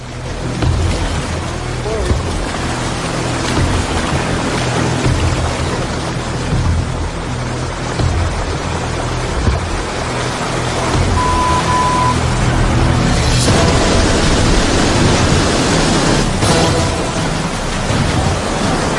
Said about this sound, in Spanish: hay rápidos y saltos de agua muy peligrosos. Id con cuidado.